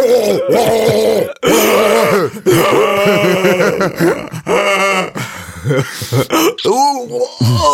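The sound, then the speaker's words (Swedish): Strained groans and throaty grunts from a staged waterboarding in a car. The choked, gurgling vocal sounds run almost without a break, with a short pause early on and a few sharper gasping bursts near the end. “Today's sound, waterboarding in car.”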